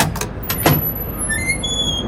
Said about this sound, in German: Die quietscht ja wieder. Ja, die quietscht immer. Die muss quietschen, damit ich weiß, dass ich noch eine Tür habe, nicht?